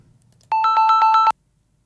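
A telephone ringtone sounds as a call to Crete is redialed: one short burst of rapid, warbling electronic ringing, loud and alone, then silence.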